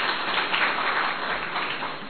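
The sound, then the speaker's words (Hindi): Audience applause at a gathering to welcome a guest: dense, steady clapping from many hands that holds at an even level for the whole stretch, with no voices. “Satish भाई के लिए खास ताली बजाएंगे”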